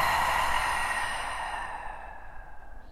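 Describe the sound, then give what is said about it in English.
A big breath let out during a guided meditation session, a soft, steady rush of air that gradually fades over a few seconds. “Together, let's take a big breath in and empty it out.”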